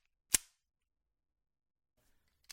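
Sharp metallic clacks from a heavy gun recoil spring being handled: one loud snap near the start, then a much fainter click a couple of seconds later, with quiet between.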